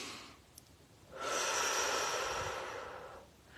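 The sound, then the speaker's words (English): One slow, deep inhale during a calming pause with eyes closed, soft and airy and lasting about two seconds, heard alone against faint hiss. “Pause, close your eyes and take a nice deep breath.”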